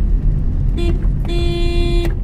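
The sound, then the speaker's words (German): Road traffic surrounds a taxi driving through a hot Gulf emirate, with a steady low engine rumble. A short car-horn toot is followed by a longer, steady honk. “Javid Mohammed ist mit dem Auto unterwegs. In seinem Wagen ist es angenehm kühl.”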